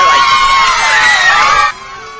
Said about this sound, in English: Little cheering sound effect? Yeah! I got one. How do you like that?